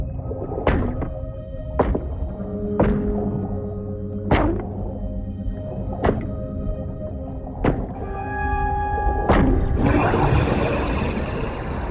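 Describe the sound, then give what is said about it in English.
Sharp metallic clanks from a rock striking a broken cylinder valve underwater, about seven separate ringing hits spaced a second or two apart, followed by a steady rushing hiss. “She grabs a shark rock and bangs on the cylinder's broken valve.”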